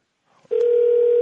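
A telephone ringing tone heard down a call line: after a faint click, a single steady mid-pitched electronic tone starts abruptly and holds unbroken to the end.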